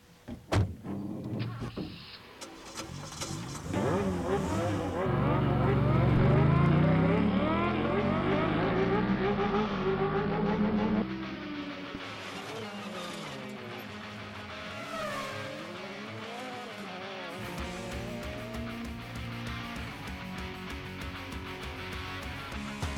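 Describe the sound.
A car door shuts with a sharp thump, then the car starts and drives off with a loud, rough engine roar of shifting harmonic tones that holds steady and eases slightly in the second half.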